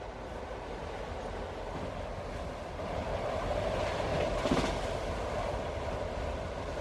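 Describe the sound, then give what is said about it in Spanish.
A train runs toward Lourdes, heard from a third-class carriage. It makes a steady, faint rumble that swells slightly partway through. “Se instala en la tercera clase del tren que va a Lourdes.”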